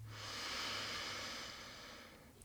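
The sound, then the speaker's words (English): A slow, deep breath in during a guided breathing meditation, heard as a soft, steady, airy hiss that swells and then tapers off over about two seconds, with no talking. “let's go ahead and take a nice deep breath in”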